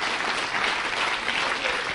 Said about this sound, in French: Montrez-moi là en applaudissant Seigneur. Ceux qui sont prêts.